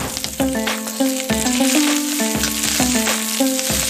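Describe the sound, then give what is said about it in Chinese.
Eggs sizzle as they are stir-fried and broken up in a hot pan, the first step of a mushroom, sliced pork and egg soup. A continuous hiss of frying runs under steady, stepped tonal notes, with scraping stirring throughout. “锅热后把鸡蛋炒散”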